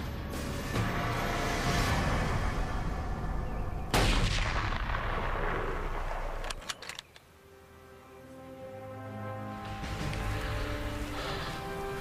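A rifle shot fired at a caribou during a hunt: one loud, sharp crack cuts through steady rushing background noise, with the noise continuing behind it and later easing off.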